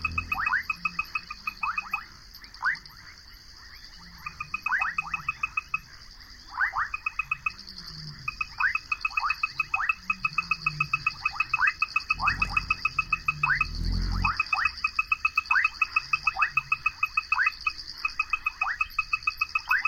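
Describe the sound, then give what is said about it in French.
A night chorus of frogs calls at the edge of a pond in the savanna, with many quick, repeated chirping croaks overlapping in a steady, dense pattern. A high, constant insect trill runs beneath them. “de chœur de batracien, dans ce domaine, dans cette forme en fait musicale. Et on a même un lion derrière, de très loin.”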